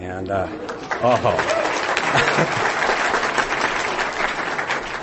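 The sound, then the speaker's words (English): Audience applause, a full, steady rush of clapping from a crowd, with a voice speaking over its opening moments. “she should get the applause for sure.”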